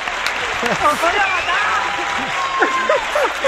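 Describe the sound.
Applause in a radio studio, a steady stream of clapping with several people talking and exclaiming loudly over it.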